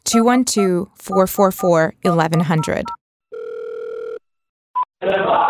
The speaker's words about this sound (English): What if you want to hear a kosher version of the things you'd hear on the radio? Well, you just dialed this number,